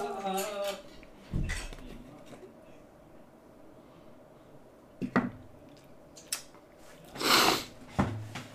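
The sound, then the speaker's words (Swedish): A spoon stirs a cup of Pepsi Max: a few scattered light clinks and one short fizzy rush. A voice speaks briefly at the start. “Ja, så sitter jag här då. Alene, rör lite I koppen och det ser ut som att blandat sig gott det här.”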